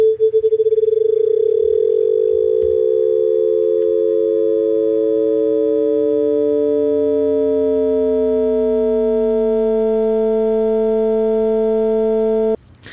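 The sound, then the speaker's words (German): Synthetic steady tone with amplitude modulation that speeds up linearly over about ten seconds. It starts as distinct pulsing, turns into a rough buzz as the tone splits into separate pitches, then cuts off abruptly near the end. “mit der die Amplitude moduliert wird. Die fangen wir jetzt an von 0 bis 220 Hertz. Lassen wir die linear ansteigen und das braucht 10 Sekunden.”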